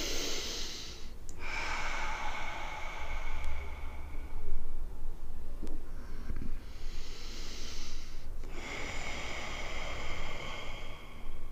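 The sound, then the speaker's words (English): Slow, deep breathing: long, airy breaths in and out, steady and hissing, separated by brief pauses. No speech is heard. “what you do is you're there with your breath, with a deep breath, just be like,”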